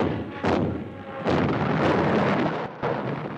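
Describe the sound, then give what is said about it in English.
Artillery gunfire roars as a relentless barrage on a wartime convoy homeward bound from Murmansk: a loud, dense, rumbling wall of noise with three heavy surges that swell and hold. “Relentless gunfire continues lighting up the sky with showers of stars.”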